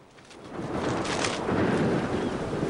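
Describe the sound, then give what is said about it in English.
A stormy sea pounds against the shore while a raging wind blows. The sound is a broad, steady roar with no speech, building over the first second and then holding strong throughout. “The sea pounds against the shore and the wind rages.”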